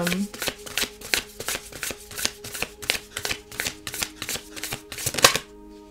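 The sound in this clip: A deck of cards is shuffled in many quick, crisp snaps with a steady, rapid rhythm. The sound builds slightly toward the end, then stops abruptly.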